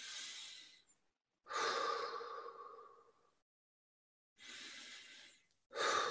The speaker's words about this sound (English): If we just take 6 deep breaths.